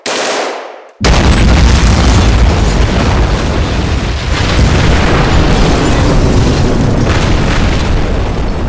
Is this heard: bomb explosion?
yes